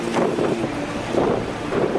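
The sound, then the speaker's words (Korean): Sandstorm wind sweeping across red desert sand dunes, driving the sand along in waves, gives a loud, steady rushing roar with low, gusty buffeting throughout. “눈 폭풍 못지않은 모래폭풍이다. 모래가 바람에 휩쓸려 물결처럼 흐른다.”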